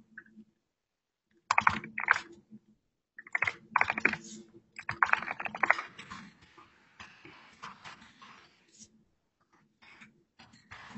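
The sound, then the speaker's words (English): Typing on a computer keyboard: irregular bursts of rapid, crisp keystrokes separated by short pauses, with the clicking thinning out toward the end. “can listen to me type”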